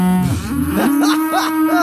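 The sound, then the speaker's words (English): A cow moos in one drawn-out, low, harmonic call that rises in pitch partway through and holds to the end, fairly loud and alone. “You know, cows are always funny. We will send every cow to find this person.”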